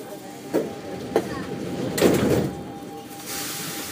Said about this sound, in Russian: Осторожно, двери закрываются.